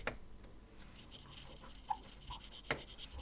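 Faint scratching of a pen writing on paper, a soft continuous scrape broken by a few slightly louder strokes.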